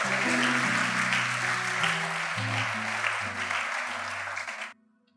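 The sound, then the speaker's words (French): A church audience applauds and cheers loudly during a worship service. The dense, steady roar of clapping holds for nearly five seconds, then cuts off abruptly, with low sustained tones underneath. “Est-ce qu'on peut encore acclamer très très fort pour le roi de gloire?”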